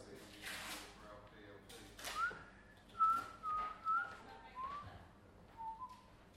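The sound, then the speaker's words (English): A person whistling, or nearly whistling, a few thin, breathy notes, some wavering and sliding in pitch, with airy puffs between them. “That's my tribute to whistling. Yeah, tribute to whistling. Not quite a whistle.”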